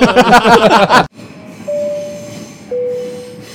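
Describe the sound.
A train passing sound effect follows a short burst of voice: a low rolling rumble with a steady squealing tone that holds, then steps up to a higher pitch partway through.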